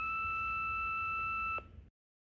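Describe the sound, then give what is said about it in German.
An answering machine's beep tone: one long, steady electronic tone of about one and a half seconds that cuts off abruptly, followed by brief faint noise. “Bitte sprechen Sie Ihre Nachricht nach dem Signalton auf das Band.”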